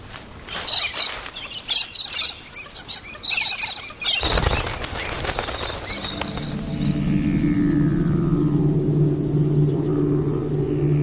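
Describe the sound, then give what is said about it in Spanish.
A wombat scratching itself: rapid, rhythmic rustling scrapes in bursts for about four seconds, then a steadier, denser wash of sound with high, thin tonal chirps running through it. “Escuchamos el ruido que produce el wombat al rascarse.”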